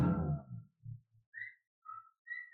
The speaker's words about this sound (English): there's the whistle. That's so funny. I don't know. I never noticed that before until tonight, and I've heard it both times.